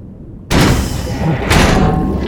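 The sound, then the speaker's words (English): A large manual hatch latch being released and the hatch opened: a sudden loud heavy thud after near-silence, then a sustained rushing roar that swells again about a second later. “I see the hatch now. Oh, it's big. I'm gonna try and open it looks like just a latch, no electronics.”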